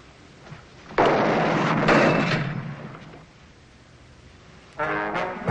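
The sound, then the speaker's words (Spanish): A metal gate slams shut over a door during a fight scene in a film: a loud, broad rumbling clatter lasting about two seconds that fades out, followed by a second harsh metallic burst near the end. “Una reja cierra la puerta. Sharon va hacia otra puerta que también se cierra.”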